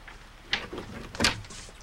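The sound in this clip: A kitchen door being opened: a short click followed by a louder knock-like latch sound, both brief and fairly faint, with no voices.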